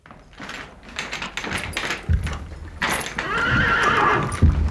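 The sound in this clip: A horse whinnies among clip-clopping hooves; these are circus horses. Knocking and shuffling come first, then a long, loud, wavering whinny rises over the later part.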